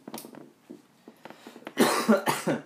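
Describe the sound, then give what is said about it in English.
Coughing in a marijuana-smoking setting: quieter breathy sounds come first, then a few loud, harsh, rough coughs in quick succession toward the end. “with that first cough”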